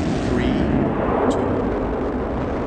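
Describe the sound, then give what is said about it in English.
Space Shuttle Endeavour lifting off from Florida on its final launch, a dense, loud, continuous roar with deep rumble that holds steady throughout. “3, 2, 0, and liftoff for the final launch of Endeavour. That is Space Shuttle Endeavour, blasting off from Florida this morning on the second-to-last shuttle mission ever.”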